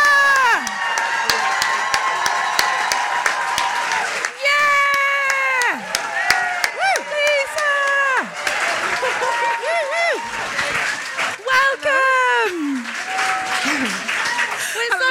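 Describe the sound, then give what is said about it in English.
Cheering and applause from a live audience welcoming a guest onstage, loud sustained clapping mixed with excited shouting voices throughout. “Ladies and gentlemen, please put your hands together for the creator of Derry Girls. It's Lisa McGee.”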